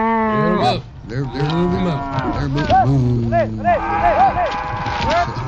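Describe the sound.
A herd of cattle moos while being driven on a cattle drive, with many overlapping calls that rise and fall in pitch, some long and low and some short, along with voices in the background.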